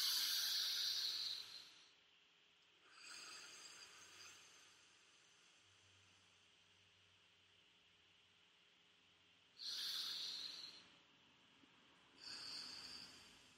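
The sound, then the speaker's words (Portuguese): Deep, slow breathing during a relaxation exercise: four airy, hissing breaths, two at the start and two near the end, separated by a long quiet stretch. “respirar profundamente, seis segundos de inspiração e seis segundos de expiração”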